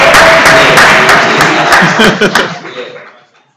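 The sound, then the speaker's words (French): A church audience cheers and applauds for an evangelist, a loud dense burst of clapping and crowd noise with some chuckling in it, which tapers off and falls to near silence over the final second. “Est-ce qu'on peut acclamer pour évangéliste Allah”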